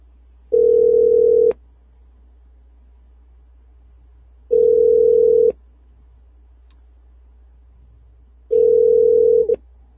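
Ringback tone of an outgoing phone call: three long, steady low tones, each about a second, evenly spaced several seconds apart over a faint line hum.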